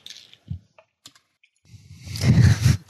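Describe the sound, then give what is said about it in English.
Computer keyboard typing while a search query is entered: a few sparse, scattered key clicks, then a rapid, dense run of keystrokes that grows louder toward the end. “I just went to Google and I typed in 128 gigabyte solid state.”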